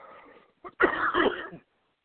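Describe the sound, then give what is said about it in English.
A single harsh, rough cough, preceded by a brief catch of breath, stands out on its own before dropping into silence. “Cough or not, but I'm trying to get rid of it.”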